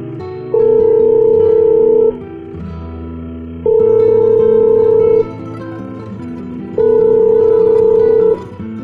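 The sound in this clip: Ringback tone heard while placing a telephone call: three long, steady, mid-pitched tone bursts separated by pauses, over soft background music.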